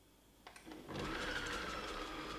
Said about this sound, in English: Okay, now we are going to head back to our mixer and see how it is getting on.